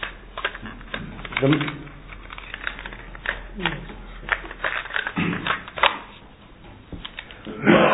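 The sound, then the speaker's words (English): A cassette tape is handled and turned over in a tape recorder, giving scattered sharp clicks and plastic rattles, with a voice talking intermittently between the handling noises. “I'm just going to turn this tape over.”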